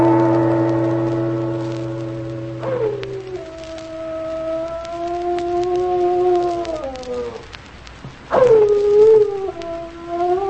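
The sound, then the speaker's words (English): A dog howling in two long, wavering howls that rise and fall in pitch, the second starting abruptly and loudly after a brief pause, over a faint low drone. “Oh, it's Peck's dog howling.”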